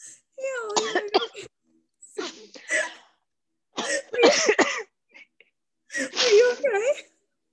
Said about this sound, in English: This kind of feels like something's in my throat. It sounds like you're choking.